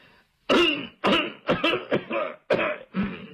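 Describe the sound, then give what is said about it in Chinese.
An old father coughs in the room across the way. About six harsh, rasping coughs and throat-clearing bursts come in an uneven rhythm, each one loud and short, with brief gaps between them. “就听对面屋他爹在那咳嗽一声”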